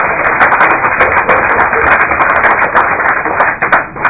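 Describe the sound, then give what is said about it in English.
Loud, steady clapping breaks out in a legislative committee hearing, a dense rattle of hands that holds nearly level throughout, with only a brief dip near the end. “I think the clapping was actually for me, right? We don't actually do that, though. It's not a sporting event”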